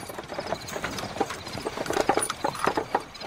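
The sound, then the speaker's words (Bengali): Hooves of a horse-drawn carriage clip-clop along a foggy lane in a rapid, steady clatter of many strikes over a continuous rumbling bed. “এবং তারপর কুয়াশা ঢাকা অন্ধকার গলি থেকে বেরিয়ে এলো একটি ঘোড়ার গাড়ি।”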